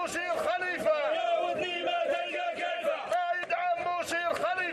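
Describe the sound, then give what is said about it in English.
Crowd shouting and chanting in support of General Khalifa, leader of the Libyan National Army, with many voices in loud, continuous harmonic cries and rhythmic bursts throughout. “They're cheering on General Khalifa, who is the leader of the Libyan National Army, which is the Libyan army and the Libyan government, too.”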